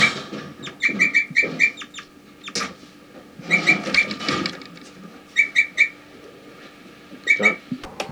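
Bird flight calls: several clusters of short, high chirps and whistled notes, repeated in bursts with quieter gaps between them.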